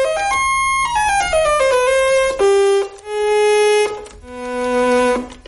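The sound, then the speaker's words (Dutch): An old Ondioline synthesizer in a rickety wooden box, decades old, plays bright, reedy notes that step down in a descending run, then sustains a few longer, loud held tones. “Dat ding heet de Ondioline. En het is een synthesizer die echt al tientallen jaren oud is.”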